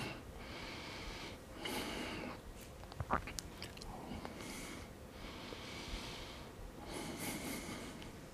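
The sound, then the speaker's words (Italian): Faint, slow breaths drawn in and pushed out during a leg exercise done with a ball, a few soft airy swells rising and falling at an unhurried pace. “inspiro, espiro, inspiro.”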